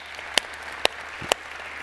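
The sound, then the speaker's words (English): A church audience applauds during a service, a steady wash of crowd clapping with three sharp, louder claps standing out at even intervals. “And can we give everybody a hand for making that decision?”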